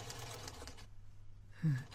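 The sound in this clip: A sewing machine runs with a faint mechanical whir that stops partway through, then starts again briefly with a short hum.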